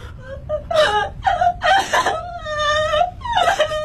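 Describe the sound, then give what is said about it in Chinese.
A person crying hard, with high, wavering voiced wails and sobs broken by short gasps, loud and without talk. “你就别哭了，你这一哭我心更乱了”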